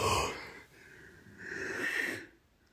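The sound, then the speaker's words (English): A big yawn from a woman, with a breathy opening and a longer, wheezy, slightly tonal stretch that swells and then cuts off abruptly into quiet. “She just yawned. So you just yawned, though. So that made, was a really big yawn out of you.”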